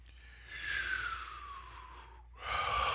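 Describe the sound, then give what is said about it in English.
A deep breath comes as a soft, airy, drawn-out sound that builds slightly, then a second, fuller breath starts after a brief dip near the end. It is faint, with no voices. “Let's just sit back, take a deep breath,”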